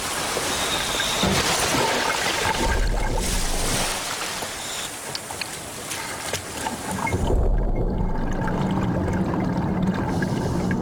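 A diver goes down into the water amid continuous rushing, sloshing water noise. It has low bubbling surges that swell, ease off, then swell again.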